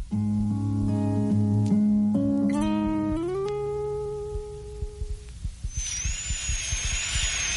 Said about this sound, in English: I'm drilling out the old filling now. Just a little more. Can you feel that?